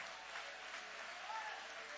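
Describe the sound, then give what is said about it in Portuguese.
A church audience applauding during a worship service, a faint, even wash of clapping with no distinct single claps standing out. “Toma o vosso assento, pode guardar a Bíblia e podem aplaudir, podem louvar, podem exaltar.”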